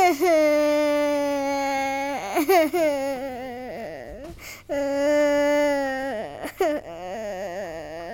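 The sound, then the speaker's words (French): A girl crying, loud high sobbing wails in two long drawn-out bouts with brief catching breaths and a short pause between them. “Elle pleura tellement que ses larmes effaceraient tous ses couleurs.”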